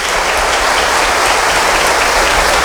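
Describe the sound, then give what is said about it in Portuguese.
A church audience applauds at Mass in honour of the parish vocations ministry. Clapping is dense, loud and even, forming a continuous wash with no breaks. “Muito bem, uma salva de palmas à”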